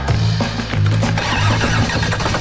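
A car engine starts and runs with a loud, deep, throbbing rumble that holds steady throughout, with no voices.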